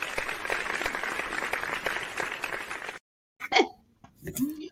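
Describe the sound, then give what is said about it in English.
Applause welcoming a guest, a dense and steady patter of clapping for about three seconds that cuts off abruptly, followed by brief vocal sounds. “I had to applaud you with all of those great accolades.”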